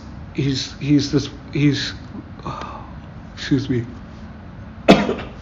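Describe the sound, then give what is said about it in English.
A yawn and a cough from one person: drawn-out voiced sounds come first, and a single loud, sharp cough bursts out near the end. “that was a yawn and a cough”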